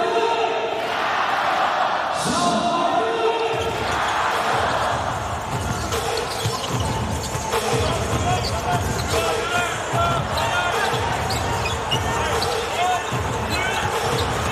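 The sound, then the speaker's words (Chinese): A basketball dribbled on the court during a professional game, with many rhythmic thumping bounces under a steady crowd roar while voices talk over it. “好的，这球运球有点粘球了啊”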